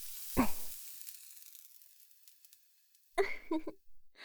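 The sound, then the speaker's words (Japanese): A branding iron sizzling on skin as an audio drama effect: a sharp hissing burst that fades into a long, quieting sizzle, then a second loud burst of sizzling near the end. “どうだった？焼き印は。暑い、なんてものじゃなかったよね。”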